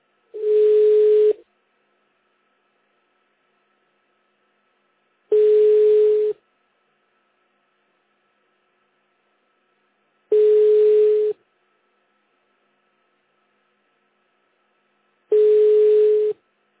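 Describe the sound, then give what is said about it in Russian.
Telephone tone on a call to a busy subscriber: four steady, mid-pitched beeps, each about a second long, evenly separated by roughly four seconds of silence. “The subscriber you have dialed is busy now. Please hold the line or call back later.”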